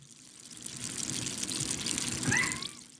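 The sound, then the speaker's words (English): Carbonated water from a home soda maker being poured: a soft, steady fizzing trickle that runs for about three seconds and swells slightly toward the end. “That's some artisanal, some bespoke carbonation. Ooh, you got a soda stream?”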